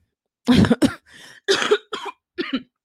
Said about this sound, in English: sorry about that, the cough, it's not going anywhere.